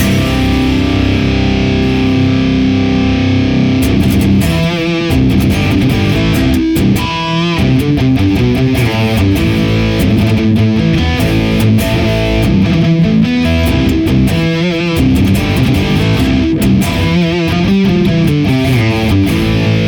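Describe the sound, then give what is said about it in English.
Electric guitar played through a blend of three impulse responses, the Rat Gargantuan, ODR Klon Green KT-88 and Thermi FA-1 Uber 75, giving loud, heavily distorted chords and riffs that ring continuously without a break, with no voices over them. “when we blend all three impulse responses together, meaning the Rat Gargantuan, the ODR Klon Green KT-88, and the Thermi FA-1 Uber 75. Using two different platforms, it sounds like this.”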